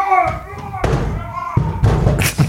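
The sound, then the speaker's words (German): Door being shut loudly, a couple of heavy, booming thuds after a voice at the start, each impact ringing with low rumble. “Er schließt die Tür, sehr laut übrigens.”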